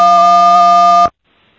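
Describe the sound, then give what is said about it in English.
A single electronic beep on a phone call: a loud, steady tone holding one pitch for about a second, then cutting off abruptly into near silence. “Hello, I heard a beep.”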